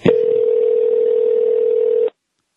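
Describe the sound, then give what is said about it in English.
A telephone dial tone sounds while a call is being placed: a loud, steady, unwavering tone lasting about two seconds that cuts off abruptly into silence. “All right, let's call him and just see if he wants to talk to us for a minute.”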